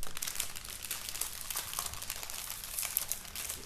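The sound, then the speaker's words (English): Crinkling and rustling of plastic wrappers as packs of player figurines are torn open, a continuous faint crackle with small sharp crunches and no voices. “So we figured we could open these up. We got those when we thought we couldn't find cards just in case, but we're just going to open those up anyway.”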